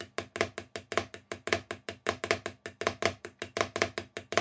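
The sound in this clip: Drum flams played in triplets, with pairs of strokes alternating with single strokes. Many crisp, dry hits come at a steady tempo in a repeating grouped rhythm.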